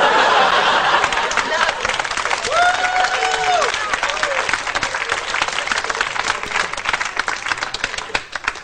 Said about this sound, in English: Clap, I'm not used to that.